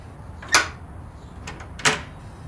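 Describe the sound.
An unlocked door is opened, with two short, sharp bursts of latch and door noise about a second apart over a quiet background.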